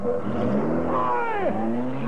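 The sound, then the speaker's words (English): A getaway car roars off after forcing a man into a wall, its engine loud and steady while a whining tone sweeps downward in pitch midway, like a vehicle tearing past. “Get the number of that car.”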